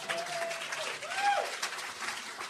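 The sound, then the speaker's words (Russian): A church audience claps for the translator during a sermon. The soft, steady patter of hands runs under a voice that keeps sounding through it. “Давайте похлопаем нашему переводчику.”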